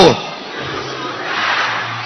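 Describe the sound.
Church audience shouting together on a spoken count, a loud, sustained crowd roar of many voices that holds steady for about two seconds.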